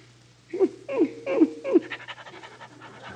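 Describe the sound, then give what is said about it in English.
A St. Bernard dog pants heavily, with four loud, rhythmic breaths followed by a quicker run of fainter pants. No voices. “Oh, you got a St. Bernard. Nice doggy.”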